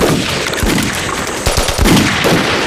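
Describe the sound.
Machine-gun fire during a battle retreat: loud, dense, continuous rattling bursts that fill the whole stretch, with heavier thumping shots standing out near the middle and end.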